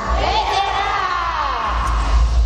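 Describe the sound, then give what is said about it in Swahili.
A church audience ululates joyfully after a healing testimony. Several high, trilling voices waver together over a murmuring crowd, with a low rumble beneath at the start and end. “Vigelegele vya shangwe kwa baba. Zidisha vigelegele.”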